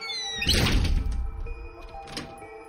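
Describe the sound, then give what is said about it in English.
A door is shut behind people stepping inside, landing with a loud, dull, low thunk that rumbles briefly before fading. A softer knock follows about a second and a half later. “We stepped inside and he shut the door, entombing us in darkness.”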